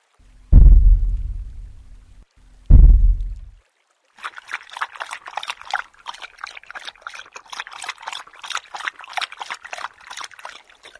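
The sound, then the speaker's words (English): A creature loudly lapping and gurgling as it drinks at a stream. Two heavy, low thuds come first, then a pause, then a steady, rapid run of wet lapping and sloshing. “And presently, I was aware of a loud lapping and gurgling.”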